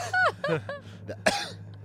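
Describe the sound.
Throat clearing: a few short, rough, raspy bursts in quick succession, then a louder, harsher burst near the end, with nothing else heard.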